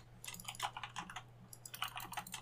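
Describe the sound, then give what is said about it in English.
Faint computer keyboard and mouse clicking during a Diablo 4 PvP session: many quick, irregular taps and clicks in rapid clusters, quiet and without voices. “Hold on a second. I've got to click really hard. Sorry. I was finishing something.”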